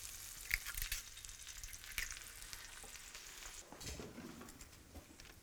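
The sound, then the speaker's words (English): An egg sizzling in butter in the center of a waffle, a soft steady frying crackle with a few sharper pops standing out early on. “We put this down, some butter on there. Here, and then we crack an egg in the center.”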